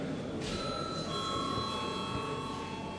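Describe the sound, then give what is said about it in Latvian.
A bell rings in a parliament chamber before a vote, starting shortly after the beginning and holding as a steady, sustained metallic tone to the end. “Lūdzu zvanu.”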